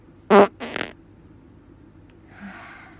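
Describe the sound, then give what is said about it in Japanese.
A fart during bedtime stretching: two short bursts in quick succession, the first loud with a buzzy tone, the second raspier and weaker, then near quiet. “これぞおならの理想形。”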